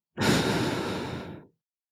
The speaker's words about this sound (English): Again, take one breath in again. And out.